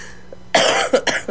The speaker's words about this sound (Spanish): No me hagan reír, que me da el ataque de tos.